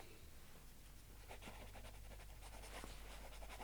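A pen writing a name on paper: soft, continuous scratchy strokes that begin after a short quiet start and carry on at a low, steady level over a faint hum, with no voices.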